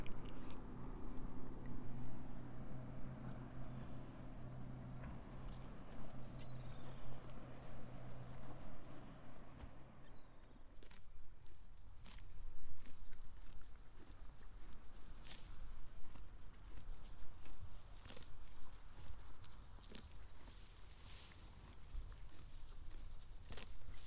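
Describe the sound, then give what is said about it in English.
Shetland ponies grazing in St. Anthony Meadow: many faint crunching, tearing bites and soft hoof steps over a steady outdoor hiss, with small high chirps in the second half. “I'm in St. Anthony Meadow, where there are Shetland ponies grazing.”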